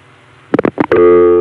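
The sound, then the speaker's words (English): A Bell System Number One ESS switch gives local dial tone over a telephone line. A faint low tone and a few short bursts lead into a loud, steady, even dial tone that holds to the end. “we get our local dial tone. If you're familiar with my other recordings of the network, you might have a little trouble finding your way around this one, but it's really not that hard. We're getting a dial tone from a number one ESS.”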